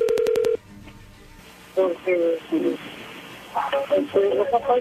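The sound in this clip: A quick burst of telephone keypad tones as a number is dialed: short, evenly spaced beeps at the start, then quiet, then a person speaking Spanish in several short phrases.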